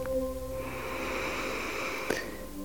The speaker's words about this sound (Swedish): Ta ett djupt andetag in igen.